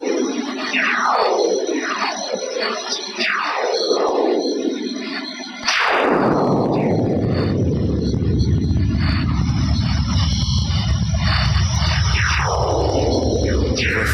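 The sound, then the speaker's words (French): Audio transcription of the sun's radio bursts: a series of whistling tones, each sweeping quickly downward in pitch. Partway through, a sudden loud burst of dense hiss arrives, and further falling sweeps continue over it to the end. “Donc ce qu'on vient d'entendre, c'est en fait une transcription audio de ce qu'on appelle des sursauts radio de notre étoile,”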